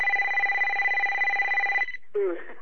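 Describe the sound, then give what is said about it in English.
A mobile phone ringtone plays, a steady electronic warbling ring lasting nearly two seconds. It cuts off, and after a short gap a brief, different burst of sound follows. “Somebody turn their phone off. Yeah. Or star 6 when your phone's ringing.”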